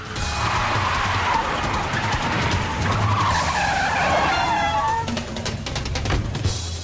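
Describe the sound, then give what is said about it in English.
Police cars skid up and park outside a bank, their tires screeching loudly and steadily for the whole stretch over a constant engine and road roar, with no voices. “More cop cars drive up and park outside the bank.”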